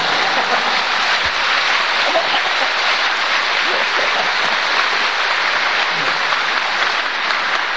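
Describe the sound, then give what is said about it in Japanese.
Applause from an audience at a talk, a steady, rain-like hiss of many hands clapping that stays even throughout. “拍手してください”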